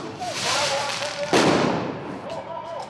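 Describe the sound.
Fireworks thrown at police during an escalating G7 summit protest in Geneva: one sharp, loud bang with a brief crackling burst near the middle, heard under a narrating voice.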